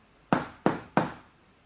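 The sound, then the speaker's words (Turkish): Knocking on a door: three sharp, evenly spaced knocks, each striking suddenly and dying away quickly, with nothing else heard between them. “Allah Resulü'nün 2 göz bebeği vaktin dolmasını bekliyorlar. Derken kapı çalınıyor.”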